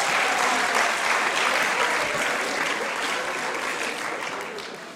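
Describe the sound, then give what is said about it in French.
Audience applause at a university graduation ceremony honouring graduating students: sustained, dense clapping from a crowd, strong at first and tapering slowly in the last seconds, with no speech over it. “on peut l'applaudir.”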